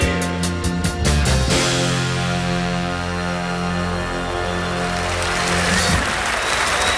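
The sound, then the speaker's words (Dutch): Live audience applause at the end of a pop song performance: sustained chords and drum hits ring on, then thin out as a dense wash of clapping takes over and continues alone at the close. “Ja, en dat applaus was ook wel verdiend, hè?”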